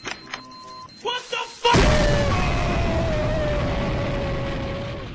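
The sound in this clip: A sudden loud boom, used as an exploding-head sound effect, bursts out after a few brief sounds and then rumbles on in a long, slowly fading tail.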